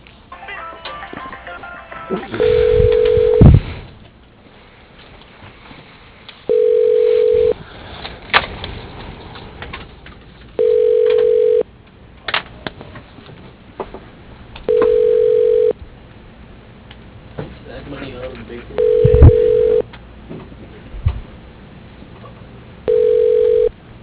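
Ringback tones on a phone line as a call is transferred to an office voicemail: six evenly spaced, low, steady beeps, each lasting about a second, separated by pauses filled with faint line hiss.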